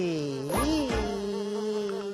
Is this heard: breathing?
no